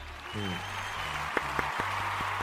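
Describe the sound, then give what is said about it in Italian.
Applause sound effect played into a sports chat: a steady wash of clapping that runs the whole way through, with low sustained tones and a few sharp clicks underneath. “Aspetta, fammi mettere gli applausi!”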